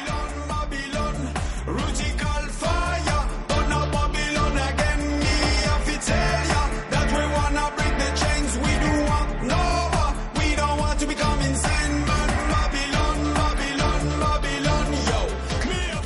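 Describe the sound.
Dub reggae music plays steadily throughout, driven by a heavy bass line and a repetitive rhythm.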